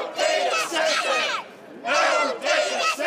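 Residents protesting a planned Google data center in Franklin, a small town, chant loudly in unison. There are two rhythmic bursts of crowd chanting with a short pause between them.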